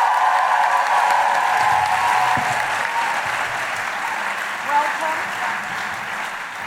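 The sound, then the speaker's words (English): Loud, sustained applause and cheering from a live show audience in Melbourne, a dense wash of clapping with whoops mixed in that continues throughout and eases off only slightly toward the end. “Put your hands together and make incredible Melbourne guilty feminist woohooing noises for the wonderful Eugenia Flynn!”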